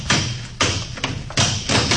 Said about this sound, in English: Smash that lock.